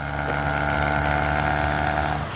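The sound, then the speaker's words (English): A tuk-tuk engine drones while driving along the coast at about 15 miles an hour. It gives a steady, humming buzz throughout, with wind rushing over the microphone the whole time. “On good old faithful tuk-tuk. Your hair's blowing in the wind. It's revving well, isn't it?”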